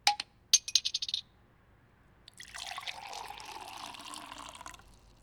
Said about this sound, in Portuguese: encher nossos copos e brindar